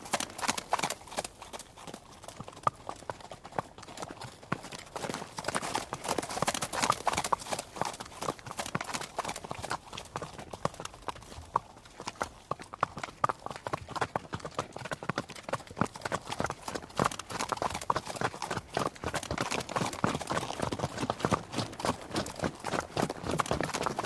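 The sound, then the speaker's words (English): Horses walking past on a dirt road, their hooves clip-clopping in a steady, continuous stream of many soft thuds at a moderate level throughout. “all of the horses are just walking past us on the dirt road?”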